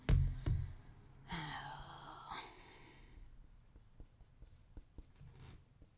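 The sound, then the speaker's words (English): Someone writing, with faint, intermittent scratchy pen strokes after an early thump and a brief breathy vocal sound, quiet and with no speech. “Oh my God, you were writing forever.”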